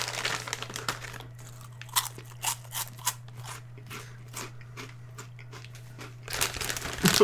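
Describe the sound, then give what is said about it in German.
Crunching of cheese ring snacks being eaten: irregular bursts of crisp bites and crackly chewing, some louder than others, separated by quieter gaps over a steady low hum. “Ich kann jetzt auch noch ein bisschen anfangen hier Käseringe zu essen.”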